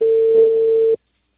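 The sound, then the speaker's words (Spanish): Telephone tone on a line after a call is cut off: a single steady, loud, pure mid-pitched tone that holds for about a second and then stops abruptly into silence. “Señora, se cortó la llamada.”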